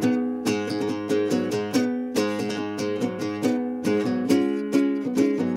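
A riff played alone on a nylon-string acoustic guitar, with rhythmic plucked notes and chords. The same phrase repeats twice.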